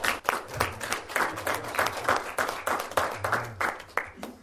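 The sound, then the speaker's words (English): A church audience applauds in praise of God, with many claps in a steady, fairly even rhythm that stays loud throughout. “And let's just give the Lord an applause for”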